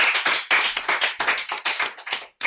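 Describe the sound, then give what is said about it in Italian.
Applause from many hands, clapping loudly and densely for about two seconds. It breaks off briefly, then resumes. “Allora, applausi. Applausi.”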